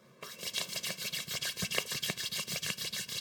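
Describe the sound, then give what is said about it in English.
Hands rubbing together in a fast, even back-and-forth rhythm, many short swishing strokes of steady loudness, heard alone. “I want you to rub your hands together like this.”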